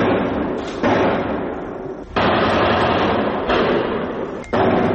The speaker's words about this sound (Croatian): Na severoistoku grada u okolini stadiona Francuska, na kome se okupilo 80.000 gledalaca, odjeknule su 3 eksplozije.